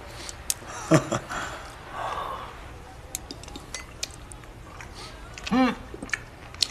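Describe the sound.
Eating grilled fish and sushi: soft chewing and biting with scattered light clinks of cutlery and dishes, mostly faint with a few sharper taps.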